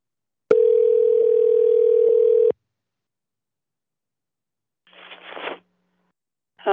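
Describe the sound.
An outgoing telephone call ringing out: a single steady, mid-pitched ringback tone lasting about two seconds, then silence and a brief burst of soft rustling noise.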